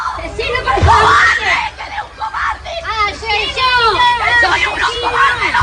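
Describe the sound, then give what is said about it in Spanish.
A crowd shouts and yells at the arrival of two brothers for a crime reconstruction, with loud overlapping voices, shrill cries and a constant hubbub of agitated chatter that rises and falls without a break. “Y este es el sonido de la llegada de las hermanos González.”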